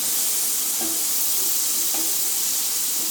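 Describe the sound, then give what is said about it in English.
Meatloaf mix sizzles steadily as it is stirred in a hot pan. The hissing spatter is constant, and a couple of faint scrapes or taps rise above it. “So I'm going to add our wonderful blended mix now to this. There we are. And just give that a quick stir around to stop it.”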